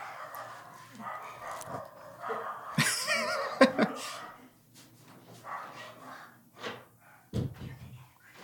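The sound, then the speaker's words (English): Dogs bark a few times in short, sharp outbursts among people talking and laughing. “oh, we'll edit, but this is also a dog-friendly podcast. Okay, dog-friendly podcast, those are the dogs.”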